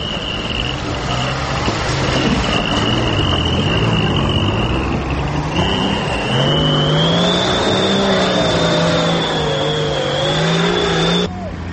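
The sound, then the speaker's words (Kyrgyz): Off-road jeeps race in a jeep-cross competition on a bumpy, hilly field at Ozernoe village in Chüy, their engines droning and revving continuously with rising and falling whines, while a thin high whine runs over the top. “Белдеш азыр Чүйдүн Озерное айылындагы өңгүл-дөңгүл дөбөчөлүү бир талаада өтүүдө. Уюштуруучулар джип-кросс мелдеш үчүн бул жерди бекер тандашкан эмес экен. Анткени джип-кросс аты эле айтып тургандай жол тандабастардын жолсуз жердеги жарышы.”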